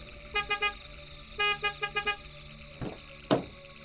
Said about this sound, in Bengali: গাড়ির আওয়াজ পেয়ে কেউ বাইরে এলো না দেখে ড্রাইভার দুবার হর্ন বাজালো